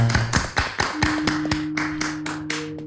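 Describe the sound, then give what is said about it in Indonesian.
Audience clapping at a community gathering in Purbalingga: a few separate sharp claps spread unevenly over about three seconds, with a steady low tone held beneath them. “Tepuk tangan di sini lah Pak.”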